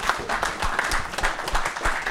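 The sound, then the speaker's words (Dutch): Applause fills a meeting as a group claps together, a dense, steady patter of many hands at moderate loudness with no break. “Verder is, wou ik een applaus vragen voor dit.”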